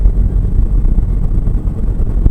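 A city bus passes in the street, a loud, low engine rumble with a steady rough roar that stays strong throughout.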